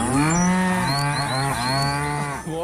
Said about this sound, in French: Vous entendez les vaches.